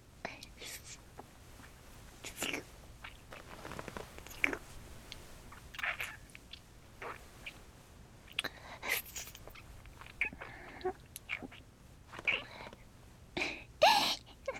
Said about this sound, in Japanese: 首筋舐められるのも気持ちいいでしょ。